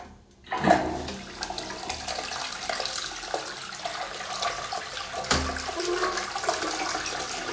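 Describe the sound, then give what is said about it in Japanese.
A toilet flushing while its bowl is loaded with waste and close to clogging: a sudden loud rush of water, then continuous swirling and draining, with a second surge partway through. “ほんと詰まりそうながらうんち溜まってるから、一応流してみるね。”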